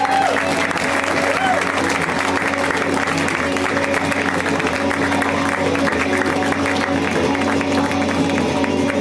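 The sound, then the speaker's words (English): An audience applauds comedians in a dense, steady wash of clapping that holds at an even loudness from start to finish. “Give them another round of applause.”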